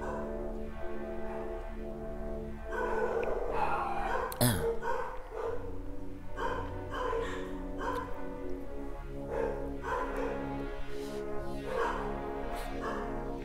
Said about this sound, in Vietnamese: Bạn đợi một tí chó nó sủa xong rồi nhá.